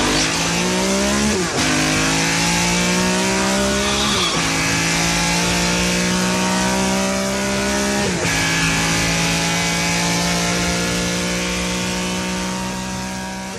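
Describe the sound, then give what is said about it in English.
A car engine fitted with six dual-throat carburetors gives a loud, guttural snarl that revs steadily, its pitch climbing and then dropping abruptly three times, like gear changes, with no voices. “six dual throat carburetors, a kind of a guttural snarl that hits you in the belly.”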